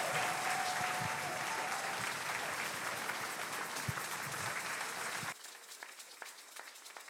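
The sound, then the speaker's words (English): An audience applauds to welcome a speaker to the stage. Dense, steady clapping lasts about five seconds, then abruptly thins to faint scattered claps. “Let's welcome him up to the stage to speak this morning. Put your hands together for him.”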